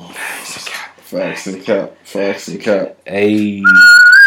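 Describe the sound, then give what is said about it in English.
A person speaks, then whistles a brief, clear high note that rises slightly and holds to the end. “Hey, I can't really whistle so.”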